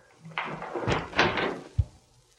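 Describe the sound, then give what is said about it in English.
A door is opened with a rattling, scraping stretch of handle and hinge noise lasting over a second, followed by one short, low thud, with no voices. “Answer the door!”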